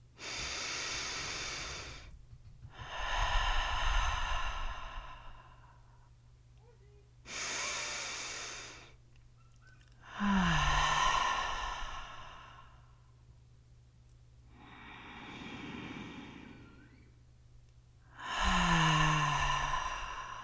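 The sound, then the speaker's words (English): Long, deep breaths drawn in through the nose and released through the mouth, about three slow cycles of airy inhales and sighing exhales, each lasting a few seconds, over a steady low background drone. “Taking three long deep breaths in through the nose and out through the mouth.”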